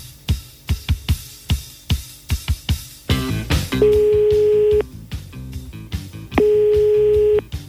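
A telephone being dialled: a rapid run of sharp dialling clicks, then a burst of dial beeps, followed by two long, steady ringing tones with a short gap between them.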